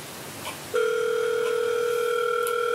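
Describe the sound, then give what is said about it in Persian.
An outgoing video call rings with a steady electronic ringback tone that starts abruptly after a short quiet moment and holds at an even level with two bright pitches until the end. “داره زنگ میخوره”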